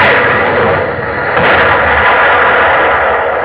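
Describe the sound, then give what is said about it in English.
Cannon fire from a sailing ship in battle forms a loud, dense, continuous roar of booming blasts. The thunder of the barrage blends into one sustained wall of noise rather than separate distinct shots. “Open fire, Mr. Quinn, open fire!”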